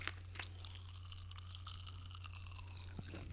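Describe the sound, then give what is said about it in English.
Tiny crackles and pops from lemon-flavoured Pop Rocks candy fizzing in a mouth as it is eaten. Many faint, irregular snaps and clicks sound alone over a low steady hum, with no talking. “Oh, I love pop rocks. I love pop rocks too.”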